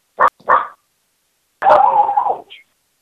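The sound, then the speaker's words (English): A person imitates a dog barking: two short, sharp barks, then a longer, drawn-out bark and a brief faint yip at the end. “I'm ready to bark.”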